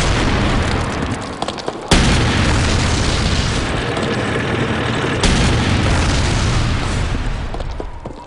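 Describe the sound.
Tank cannon fire against a German bunker on the outskirts of Bastogne during the Battle of the Bulge: heavy booms over a loud, continuous roaring rumble, with two sharp blasts clearly standing out.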